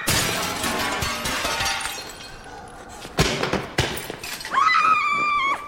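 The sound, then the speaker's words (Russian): Glass window smashed with a chair: sharp, bright crashes and shattering bursts stand out loudly against a busy, fairly dense background. “Разбивает стулом стекло и убегает в образовавшийся выход на улицу.”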